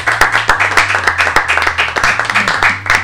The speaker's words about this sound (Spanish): recibimos con un fuerte aplauso a la banda invitada